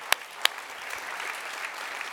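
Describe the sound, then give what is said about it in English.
Church audience applauding God's good work during an announcement about a hospital campus opening in Eldoret: a steady, even wash of many hands clapping, opened by two sharp, distinct claps near the start. “Yeah, we can applaud. God's good work in that.”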